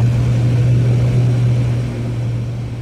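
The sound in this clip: Propeller drone of a small aircraft taking off from runway 09 near Norwich: a loud, continuous low engine hum that holds a steady pitch throughout and eases off slightly near the end.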